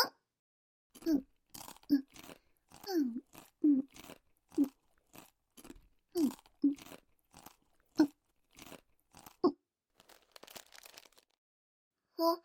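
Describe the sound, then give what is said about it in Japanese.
Crunchy snacks are eaten in many rhythmic, crisp bites, each crunch short and sharp, quiet overall, with a looser run of chewing toward the end and no talking. “お菓子の食べ過ぎ？いいじゃん、別に。美味しいんだもん。”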